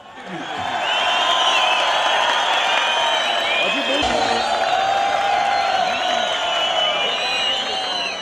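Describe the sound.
A concert crowd applauds and cheers as a performer is invited up, clapping swelling quickly into a sustained roar with whoops and shouting voices over it for about eight seconds.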